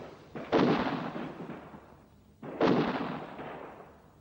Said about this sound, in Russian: Красноармеец бросает гранату, граната взрывается рядом с патефоном, музыка смолкает.